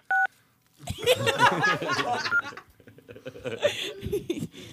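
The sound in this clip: A single short beep from a telephone keypad, pressed to choose an option on an automated adult phone line menu, followed by laughter and voices talking.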